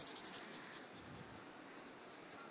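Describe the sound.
Scratchy rubbing of a thick black Edding marker colouring in an area with firm strokes. The steady, faint scraping runs continuously and is heard alone.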